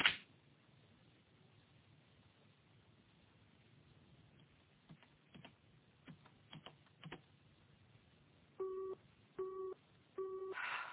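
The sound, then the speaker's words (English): Telephone busy signal on an engaged line: three evenly spaced, steady tone beeps near the end, the last running to the close, preceded by quiet line hiss and a few faint scattered clicks. “The line's engaged.”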